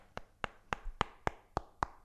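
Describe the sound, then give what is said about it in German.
Knocking on a transparent polypropylene carbonate plastic plate about the size of a sheet of writing paper: seven sharp, evenly spaced taps, faint and alone. “klopft der Kunststoffexperte nicht auf Holz, sondern auf eine durchsichtige Plastikplatte, etwa so groß wie ein Blatt Schreibpapier.”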